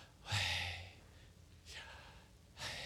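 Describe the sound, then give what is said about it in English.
A person breathes in and out as a demonstration, making three soft, airy breaths. The first is the longest and carries a faint low voiced tone, and the later two are lighter and shorter. “Do y'all hear it? That is the breath.”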